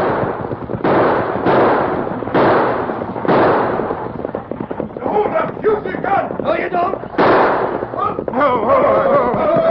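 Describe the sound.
Gunshots ring out in a radio drama hold-up of a driver carrying gold: several loud, sharp bursts come in the first few seconds, followed by raised voices.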